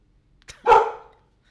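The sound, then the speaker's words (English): A dog barking in a house at a departed mailman: a brief sharp onset, then one long, loud bark that swells and trails off slowly, heard alone. “Yeah, that last one was loud. Sorry, everybody. That's my dog, Rocky.”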